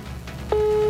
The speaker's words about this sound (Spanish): Bueno, ya marco dos veces. Ya, por lo menos sigue sonando.